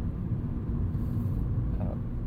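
A car's engine rumbles steadily while driving, a low, even drone that stays quiet and unchanging throughout, with no voices.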